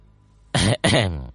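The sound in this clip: A man gives two dry coughs, close together, loud and voiced, with a short gap between them and nothing else around them.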